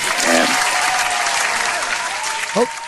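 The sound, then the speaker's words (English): A studio audience applauds on a TV talk show with steady, dense clapping that runs throughout, with brief cheering voices rising near the start and again toward the end. “That studio audience gets excited, Patrick. Hang in there with them.”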